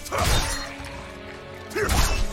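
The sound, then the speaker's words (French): Crunching, shattering impacts as a bone wall is broken in the video game Diablo IV. Two loud bursts, one near the start and one near the end, with a low droning tone sustained between them. “Et ça sert à quoi de casser le mur d'os”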